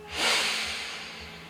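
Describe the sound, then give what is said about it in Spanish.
A deep inhale during a guided breathing exercise, heard as a soft rushing hiss that swells quickly and then slowly tapers off, with no talk. “Y cuando inhalemos, mentalmente vamos a decir Pramputi. Inhala.”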